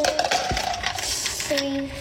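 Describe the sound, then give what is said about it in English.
Ice cubes drop into a milkshake glass, making a few quick clinks and knocks with one sharper impact near the start. “You want to put some ice in yours? Yeah. I'm going to put some ice in mine.”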